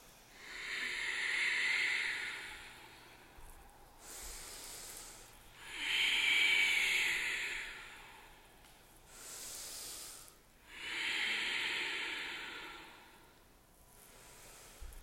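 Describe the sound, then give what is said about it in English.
Ujjayi breathing during a yoga class, drawn in and out through the nose with lips sealed. Three long, loud, hissing breaths come at a slow, even pace, each lasting a few seconds, with softer breaths between them and no talk. “Ujjayi, the sealed lips. Breath in and out through your nose.”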